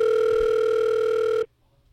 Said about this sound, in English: we're going to try to get some more people on the phone now.